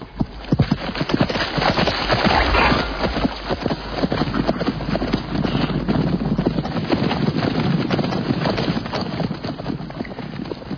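Ridden horses' hooves clip-clop in winter, a long run of rapid, irregular hoofbeats that goes on steadily throughout, with no talk.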